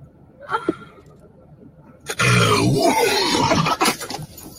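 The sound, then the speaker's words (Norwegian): A small groan and grunting: a couple of short, faint vocal sounds come first, then a longer, louder, breathy and strained stretch that fills the second half. “Hør på den lille stønnet før ballerapen.”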